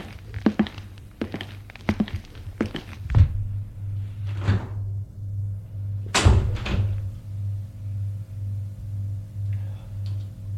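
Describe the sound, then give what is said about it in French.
In an audio drama, lift doors thud and footsteps thump, several knocking impacts in uneven rhythm, over a low pulsing hum that continues steadily underneath. “Et il y va prendre l'ascenseur.”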